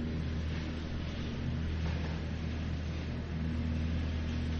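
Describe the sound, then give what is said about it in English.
Steady low mechanical drone and rumble from a leaf truck grinding as it picks up leaves on a street, an even, continuous noise that stays constant throughout with no talk. “if you hear this grinding noise in the background, that's because a leaf truck is picking up leaves on Main Street.”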